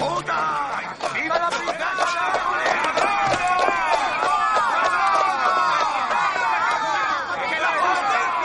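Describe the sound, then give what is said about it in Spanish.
Dense chatter of a crowd of onlookers gathering by a waiting carriage at a palace door, many voices overlapping into a steady, lively babble with scattered footsteps, unbroken throughout. “Un grupo de curiosos se reúne para ver a Doña Ana abandonar su casa.”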